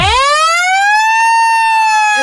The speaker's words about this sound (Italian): E poi a 0 la sirena.